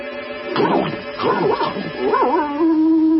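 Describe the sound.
A dog barks and yips in a snowy setting, a run of excited, pitched barks and whining cries rising and falling, ending in a drawn-out howling note.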